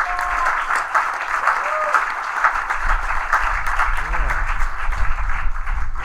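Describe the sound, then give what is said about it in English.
At the Belfast Ukulele Fest, the audience applauds the sound engineer with full, steady clapping while a voice speaks over it. “So thank you very much, and big thanks to Risa, working sound. Give it up to Risa.”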